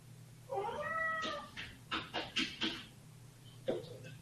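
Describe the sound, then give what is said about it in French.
A cat meows faintly: one drawn-out, wavering meow, then a quick series of short chirping calls and one more brief cry after a pause. “Apparemment, le chat est d'accord avec moi.”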